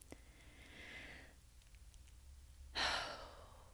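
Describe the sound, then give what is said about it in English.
A quiet, deep breath is drawn in softly, followed after a pause by a louder, sighing breath out. “Now, take a deep breath in and imagine smelling the flowers. No, really, like take a deep breath right now.”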